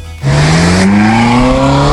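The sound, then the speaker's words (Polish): A car engine revs hard with steadily climbing pitch, joined by tyre squeal, loud and continuous after a brief quieter start. “Ten samochód czeka właśnie na was”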